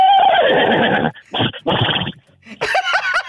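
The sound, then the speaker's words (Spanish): A horse neighing loudly: a long whinny that falls in pitch, followed by further short, rough neighing bursts. “ahí te va otro relinchido”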